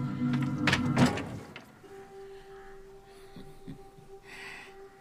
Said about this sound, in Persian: شازده بصیر درو باز میکنه